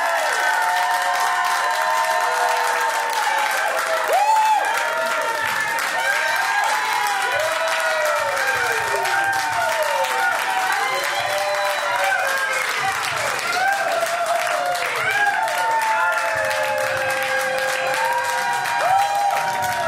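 Loud cheering and applause from a live show audience fills the whole stretch, with whoops and shouts rising and falling over steady clapping and no letup in volume.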